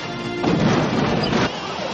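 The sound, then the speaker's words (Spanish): A car crashes through roadblocks made of other cars, setting off collisions and rollovers: a loud sustained smash of crunching metal over a dense roar that eases off after about a second. “Luis se lanza contra varias barreras de coches, pasándolas y provocando choques y vuelcos”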